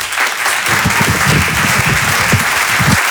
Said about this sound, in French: Merci pour cet accueil chaleureux. Faites-moi plus de bruit là, s'il vous plaît.